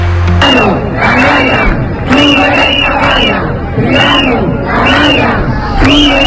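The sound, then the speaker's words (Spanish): A street protest crowd of hundreds shouts in front of a government delegation office in Ceuta. Loud massed voices rise and fall in repeated rhythmic chants that carry through the whole stretch. “Es el sonido de la calle en Ceuta, donde este viernes cientos de personas se han manifestado enfrente de la delegación del gobierno”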